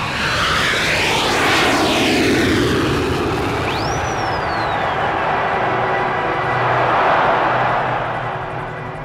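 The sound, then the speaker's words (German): A jumbo jet takes off from a runway at Heathrow under grey skies in light drizzle. A heavy, continuous engine roar runs throughout, and a high whine rises and then falls away partway through. “Anderthalb Stunden später hob sein Jumbo-Jet nach Rio de Janeiro bei grauem Himmel und leichtem Nieselregen schwerfällig von der Startbahn ab.”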